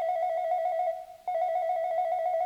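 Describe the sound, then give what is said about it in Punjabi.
A newly installed landline telephone in a village home rings at midnight with a fast, warbling electronic trill. Two loud ring bursts are separated by a brief pause. “ਅੱਧੀ ਰਾਤ ਨੂੰ ਰੋਜ਼ ਇੱਕ phone ਆਇਆ ਕਰੇ।”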